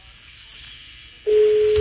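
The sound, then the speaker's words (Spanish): A telephone ringing tone on an outgoing call: a steady, low-pitched tone starts after a quiet, slightly hissy line and holds unbroken to the end. “Está sonando el teléfono.”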